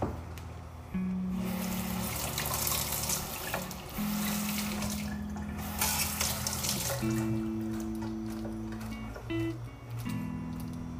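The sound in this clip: Tap water running steadily into a sink while ice cream is washed off, a faint continuous gushing flow that starts shortly after the opening and holds through to the end.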